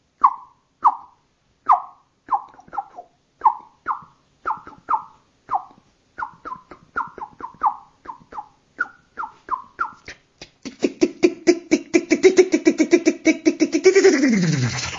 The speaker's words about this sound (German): verabschiedet sich die Amsel.